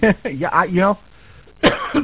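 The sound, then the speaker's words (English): A man coughs and clears his throat at a radio microphone in short, loud, rough bursts at the start and the end. Voiced sounds come between them. “excuse me. It seems like every time I open my mic, I have to cough lately.”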